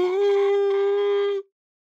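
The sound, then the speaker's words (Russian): A woman howls like a wolf: one sustained, steady-pitched wail lasting more than a second before it cuts off sharply into silence. “Она по-волчьи завыла, задрав лицо к небу.”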